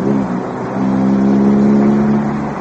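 Car engine droning as a car is driven hard with the accelerator pressed down, in a drama scene: a low, steady hum that swells louder through the middle and eases slightly at the end.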